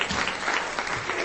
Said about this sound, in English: Well done. Round of applause.